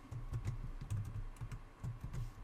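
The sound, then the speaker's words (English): Typing on a computer keyboard while filling in details on an account sign-up form: many quick, uneven keystrokes in a steady patter, fairly faint and with no voices. “Okay, go ahead and type in your information here.”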